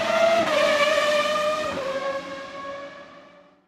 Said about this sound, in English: What an amazing race for Barrichello!